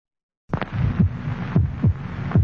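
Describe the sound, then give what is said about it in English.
Human heartbeat sounding as a steady rhythm of dull, low thumps over a constant wash of hiss, with no voices. “This is the sound of a human heart.”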